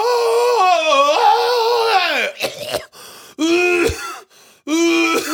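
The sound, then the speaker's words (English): Exaggerated, theatrical coughing from a person: several long, voiced, groaning hacks with wavering pitch, separated by short gaps. “Performative coughing.”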